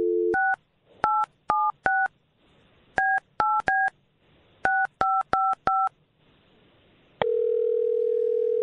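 Touch-tone keypad beeps as a phone number is dialed: eleven short two-note tones in quick clusters after a brief low tone, then a steady continuous telephone tone holding to the end.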